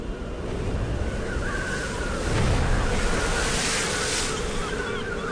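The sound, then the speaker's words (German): Surf breaks against rocks in a continuous roaring wash of water that swells louder around the middle, then eases back to a steady rush. “Die Brandung schlägt gegen die Felsen.”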